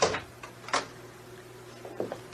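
An unlocked door opens in a radio drama with a few faint clicks and knocks, spread unevenly over a low, steady hum.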